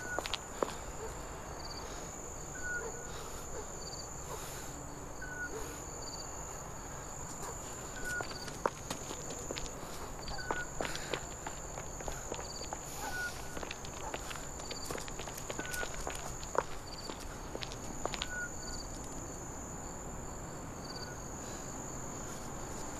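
Footsteps of people walking together, a steady run of soft, irregular steps lasting throughout, with crickets chirping continuously in the background.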